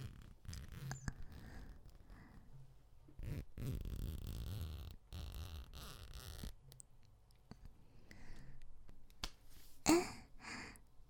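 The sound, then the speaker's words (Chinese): The back zipper of a tight dress being pulled down, giving ragged, rasping bursts and scratchy clicks amid fabric rustle across several uneven pulls, with no talking. “你帮帮我把后背拉链拉下来。”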